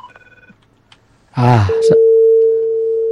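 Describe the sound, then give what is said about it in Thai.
A telephone tone after a caller's line has dropped: a single steady, mid-pitched note that comes in loud after a brief vocal sound and holds unbroken to the end. “ขออภัยโทรใหม่นะครับไม่ทราบว่าสายหลุดไปแล้วนะโทรใหม่นะครับโทรใหม่นะครับผู้ฟังที่โทรมาเมื่อสักครู่นี้สายหลุดไปขออภัยด้วยนะครับ”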